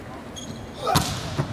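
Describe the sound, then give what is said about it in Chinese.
A hard jump serve in volleyball is struck and scores directly: a sharp smack, then a couple of quicker thuds, all fairly faint over a low background murmur. “好发球，王斌的直线大力跳发直接得分”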